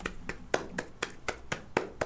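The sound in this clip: Hands clapping in a steady, even rhythm of about four sharp claps per second, each crisp smack clearly separated by brief gaps.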